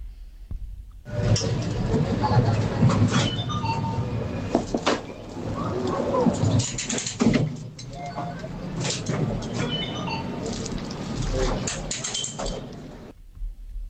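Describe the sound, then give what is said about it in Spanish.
Subway train noise opens a played song: continuous rumbling and rattling with scattered clatter and clicks, rising and falling in loudness over about thirteen seconds. “No, yo creí que era como la entrada de un metro”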